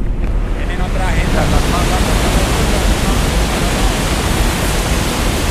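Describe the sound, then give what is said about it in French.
Rushing water roars at the Ituango hydroelectric dam in Antioquia, Colombia, reached through tunnels cut into the mountain. A loud, dense, unbroken wash of noise holds steady throughout. “Ce bruit est celui de l'eau du barrage de la ville d'Ituango, dans la région d'Antioquia.”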